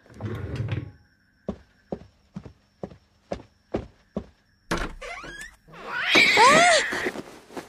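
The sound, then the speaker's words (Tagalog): A door is opened after seven sharp, evenly spaced taps, with a rough clunk and scrape. A large orange cat then lets out loud, drawn-out meows. “Pero bakit parang tumutuktok? Buksan ko na nga ang pinto.”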